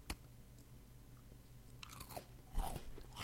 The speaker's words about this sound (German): Oh, die sind auch lecker, die Kekse. Das denkt man immer nicht. Man denkt, das kommt nur auf den Zettel an